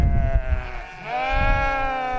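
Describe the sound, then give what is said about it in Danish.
Sheep bleating from a flock of ewes and lambs running down a hillside: two long, wavering bleats overlap, the second one stronger and higher, over a low rumbling background. “Hvor mange er der her? 41 får og 6 skimmer. Det er lam fra sidste år, der bliver til får”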